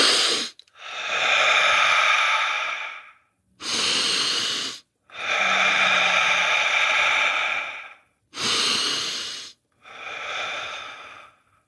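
Deep, loud breaths during a breathing exercise, a series of long hissing inhales and exhales separated by short silent pauses, heard alone.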